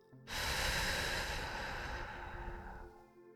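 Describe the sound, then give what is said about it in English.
A slow, deliberate breath, heard mainly as one long, soft, airy exhale that starts suddenly and trails off over about three seconds, with no voices. “Will you take a breath with me? Breathe in. And breathe out.”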